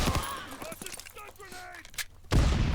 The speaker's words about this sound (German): Die Waffe hört sich an ohne Schalldämpfer wie mit Schalldämpfer. Kann das sein? Ja, ne? Hat keinen Unterschied?